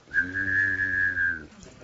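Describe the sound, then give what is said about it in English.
A two-tone mouth whistle: a high, steady whistled note is held for over a second with a low hummed tone sounding under it at the same time, then both stop abruptly, leaving faint noise. “That's a Chickasha two-tone whistle. I grew up in Chickasha, and I learned how to do that. It's two tones.”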